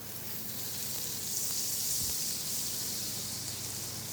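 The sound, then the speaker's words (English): Butter sizzling in a heated cast iron skillet, an even, continuous frying hiss that swells slightly midway and carries on alone without talk. “Got a cast iron skillet heated up, and we're gonna put a little bit of butter down.”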